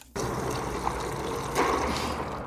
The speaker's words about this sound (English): And whisk. That's brine. That's correct. And I'm going to take a shot at who made the brine sound.